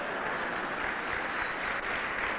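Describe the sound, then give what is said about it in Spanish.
Audience applause fills a motivational talk: dense, steady clapping at a moderate level that holds evenly for the whole stretch without pauses. “No aplauda que su esposa está al lado.”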